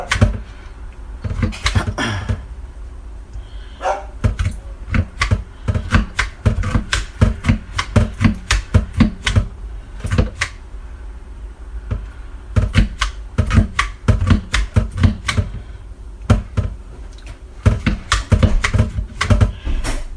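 Tenderizing raw chicken breasts: a tool repeatedly punches holes in the meat and flattens it. Many sharp, dry taps come in quick, irregular bursts, steady and fairly loud throughout.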